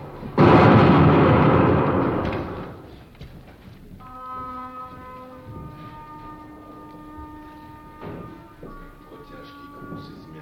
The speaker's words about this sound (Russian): Пусть облакам докладывает пушка, и гул небес в ответ земным громам со звоном чаш смешается.